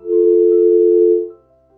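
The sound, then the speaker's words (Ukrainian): A steady telephone line tone sounds during a failed call: one continuous, even-pitched hum holds for a little over a second, then cuts off, leaving a fainter tone behind it. No voices are heard. “Не вийшла в нас спроба прийняти дзвінок по номеру 050.”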